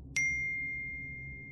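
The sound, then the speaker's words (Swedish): A phone's text message notification ding: a single bright, high chime that strikes once and rings on, fading slowly over more than a second over a low steady hum. “Ganska snart efter vårt samtal med Helene så får vi ett sms.”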